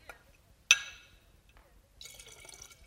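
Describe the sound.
A single bright glass clink, then a short stretch of liquid trickling as leftover vodka is poured back into a bottle, both fairly faint.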